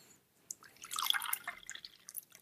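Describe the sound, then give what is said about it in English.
Zilong roasted tea pours from a pot, making a soft, faint trickle of splashing liquid that swells and then breaks into scattered drips. “So as mentioned earlier, I have prepared myself a pot of Zilong roasted, which I'm just going to pour in”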